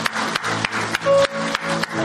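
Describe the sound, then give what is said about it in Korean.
A church audience claps in praise during worship, keeping a steady rhythmic beat of loud, even bursts. Sustained musical tones run underneath the clapping. “찬양하며 박수로 영광 돌리십시다.”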